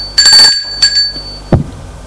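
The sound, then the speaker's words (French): A doorbell rings at an apartment: a bright, metallic ring with a lingering high tone, then a shorter, quieter chime. “sonne à l'appartement”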